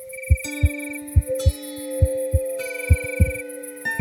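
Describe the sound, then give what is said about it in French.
A heartbeat thumps in low double beats, about four lub-dub pairs at a slow, steady pace, under soft sustained musical tones. “Écoute bien. Même ton cœur fait du bruit.”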